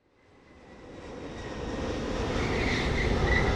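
Airplane flying: engine roar building steadily from near silence into a loud, broad rushing drone with a faint high whine, growing for the whole stretch.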